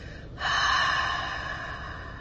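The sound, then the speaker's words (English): A long breath pushed out through the mouth during a guided breathing exercise: a single airy, steady rush that begins abruptly and holds to the end, easing slightly as it goes, with no talking. “So then your next exhale, go ahead and breathe out your mouth.”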